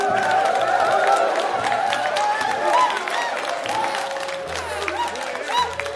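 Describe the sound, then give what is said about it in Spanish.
Fake canned applause with crowd noise is played as a sound effect, a dense, steady clatter that runs throughout while a voice talks over it. “¿a qué se deben estos aplausos tan falsos?”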